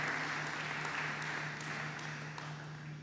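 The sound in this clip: Church audience applauding after a passage of scripture is read, a faint, steady wash of clapping that holds evenly for the whole stretch over a low, constant hum.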